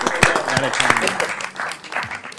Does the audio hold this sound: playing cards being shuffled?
no